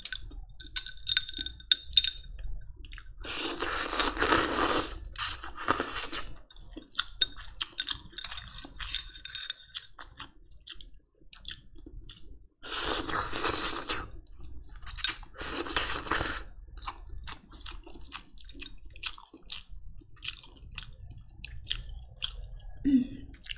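Close, wet chewing of omelette rice, with soft smacking and mouth sounds. A few louder, harsher bursts of noise break in along the way, and the eating goes on unevenly with short pauses.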